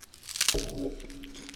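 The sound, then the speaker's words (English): Biting into a thick, Cheeto-like puffed snack with a styrofoam-like texture gives a short, faint crackling crunch early on, followed by quieter crinkly chewing noise. “Stick it in your mouth. Put your lips over around the tip and press with your teeth. It's like a huge Cheeto, like a thick Cheeto.”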